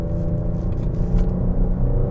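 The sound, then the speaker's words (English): A car engine revs with a deep, loud rumble as the driver shifts from third into second gear for a corner, its steady low drone continuing with no voices. “Okay, third gear into second, listen to that, into this corner”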